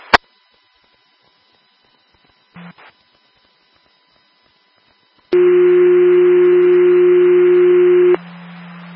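A county dispatch radio sounds two-tone alert tones for an ambulance call. After a click and a short blip, a loud, steady pure tone holds for about three seconds, then drops to a lower sustained tone.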